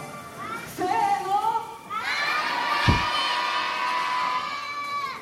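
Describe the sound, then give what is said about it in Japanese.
An excited audience shouts and cheers, with many voices including high children's cries and whoops overlapping in a loud, continuous roar that swells and stays heated. “観客がヒートアップしている様子がお聞きいただけると思いますが、 すごいね。叫んでますね。”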